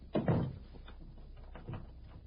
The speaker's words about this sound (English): Close the door and lock it.